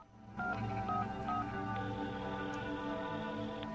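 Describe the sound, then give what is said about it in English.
A telephone is dialed by hand, giving a quick sequence of steady electronic keypad tones that change pitch from press to press, with a faint hiss underneath. “He picks up a phone next to it and dials.”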